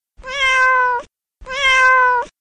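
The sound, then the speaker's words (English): A cat meows twice, two loud, clear, drawn-out tonal calls of equal length separated by a short pause, with no other sound. “Cats meow.”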